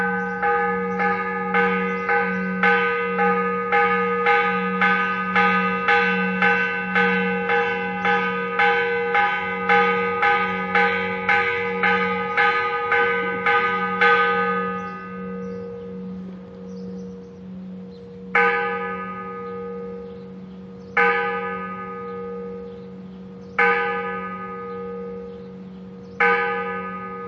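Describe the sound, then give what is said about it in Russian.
Ship's bell rung in a fast, steady run of metallic strikes for about fourteen seconds, then a few slower, widely spaced single strikes that each ring out and fade. “послушаем еще один вариант звучания рынды корабельной”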